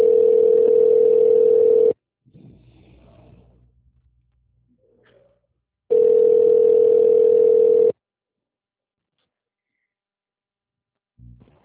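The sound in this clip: A telephone call's connecting tone after an automated menu: two long, steady, single-pitch beeps of about two seconds each, separated by several seconds of near silence with faint low noise.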